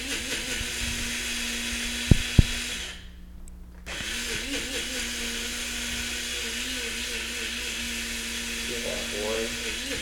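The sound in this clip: An electric coffee grinder grinds coffee beans with a steady, buzzing motor whir. A couple of sharp clicks come before the grinding drops out briefly, then it resumes and runs evenly to the end.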